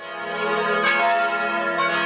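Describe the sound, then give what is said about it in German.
A wedding bell rings loud and sustained, a rich metallic tone with lingering overtones. Fresh strikes renew the peal twice. “die Hochzeitsglocke, die hier läutet.”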